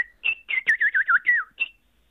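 A black woodpecker call: a run of about eight clear, ringing whistled notes, high-pitched and fairly loud, with no voices.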